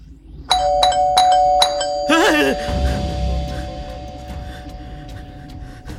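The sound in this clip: An electric doorbell rings loudly in a house: four quick, bright ding strikes leave a sustained ringing tone, then a voice calls out over a low, rumbling background.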